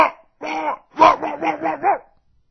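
A dog barks and growls loudly to scare off intruders, sending out a rapid run of rough, harsh barks that blur into throaty growling, alone with no other sound.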